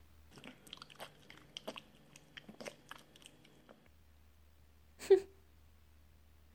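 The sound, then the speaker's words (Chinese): Someone bites and chews food, giving a few seconds of faint, irregular crunchy clicks and snaps. Then comes a pause and a louder short sound near the end. “记得要全部吃干净哦。味道不错吧？”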